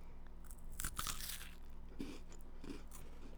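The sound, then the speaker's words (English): Someone bites into a chocolate with a lighter chocolate centre, making soft crisp crunches and chewing. A few short, quiet bursts are separated by brief pauses, with no talk. “It's like all chocolate in the center. But it's like, ooh, a lighter chocolate?”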